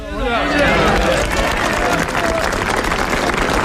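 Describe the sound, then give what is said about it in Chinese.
A large crowd of Winter Olympics athletes and staff gives warm, sustained applause. Dense clapping holds at a steady, loud level, mixed with a murmur of voices. “大家报以热烈掌声，高呼请总书记放心，我们准备好了。”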